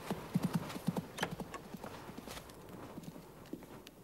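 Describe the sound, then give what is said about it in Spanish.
Horse hooves clip-clopping as a mounted courier rides off down a street, many faint, rhythmic clops in a steady trotting pattern. “un correo a caballo entrega una carta al tendero. Es de Francia. Se marcha.”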